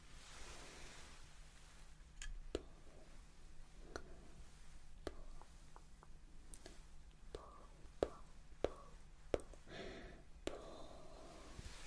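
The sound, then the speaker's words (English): ASMR pulling and snipping sounds, used in a personal-attention plucking session: many sharp, crisp clicks spaced irregularly over a faint hissy background, with soft whispering in between. “Pulling and snipping. Pull and snip. Pull and snip.”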